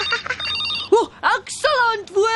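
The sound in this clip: A telephone rings in short repeated bursts, mixed with voices speaking.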